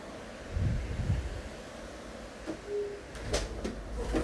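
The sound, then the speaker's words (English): Wind buffets the microphone in fairly faint, low rumbling gusts, with a few stronger bursts rising out of a steady hiss. “the wind is going crazy”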